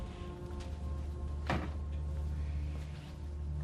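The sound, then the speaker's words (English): A door closed: one short, soft thud over a quiet, steady low hum. “She closes the door as she steps back inside.”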